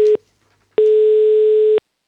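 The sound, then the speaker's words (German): Telephone ringback tone while calling someone: the end of one steady tone, a short pause, then a full tone of about one second at the same pitch, loud and clean with no talk. “Müssen wir gleich mal anrufen beim Simon.”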